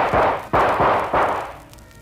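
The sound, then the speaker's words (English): Gunshots ring out, a few sharp, loud bangs in quick succession, each with a short decaying tail, with no talk over them. “You missed me, Joker! Now your gun is empty.”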